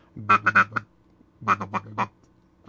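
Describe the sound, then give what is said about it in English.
A duck call blown in single murmurs to imitate a duck: two short bursts of quick, nasal quacking notes separated by a pause, with another burst beginning at the very end. “Single murmurs work so much better to finish birds. It sounds like this.”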